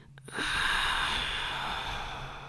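A ragged, drawn-out male breath in a recording made in a women's restroom on a first floor, a rough, breathy hiss that swells quickly and holds for about two seconds before easing slightly.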